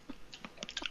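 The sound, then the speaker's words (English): Someone chews a crunchy bagged snack seasoned with sesame seeds, garlic, onion and salt, making a few quick, faint crunches in close succession. “That's the sound of a dude just eating food and recording it.”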